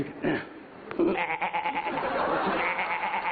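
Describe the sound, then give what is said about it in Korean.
A human voice imitates a baby goat's bleat with a nasal, quavering cry. After a brief lead-in it is held steadily for over two seconds with a rapid wobble running through it. “여기는 새끼 염소 소리고”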